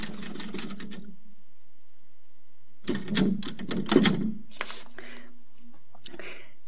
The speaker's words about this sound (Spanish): hay en el mundo cosas que suenan igual, como una máquina de escribir.